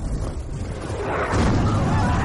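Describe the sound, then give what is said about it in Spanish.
A cannon fires on a coastal front line. A deep booming roar swells about halfway through over an already noisy, rumbling low background. “Dispara con el cañón”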